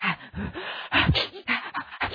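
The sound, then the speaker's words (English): Chaotic panting from a person mashing up their face during a breathing exercise: many rapid, harsh, uneven huffs and gasping breaths in an irregular rhythm, sounding almost animal-like. “So mashing up your face and chaotically breathing.”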